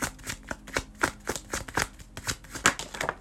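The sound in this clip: Tarot cards being shuffled, a rapid series of many soft riffling bursts in a steady rhythm, each a brief papery flutter, heard alone without talk.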